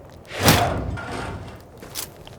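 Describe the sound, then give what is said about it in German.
The hatch of a giant robot's chest crystal store opens with a heavy whooshing thump, followed by a softer rumble and a lighter clack near the end. “Jetzt schauen wir doch mal in den Kristallspeicher. Los, öffne die Klappe, Robolord.”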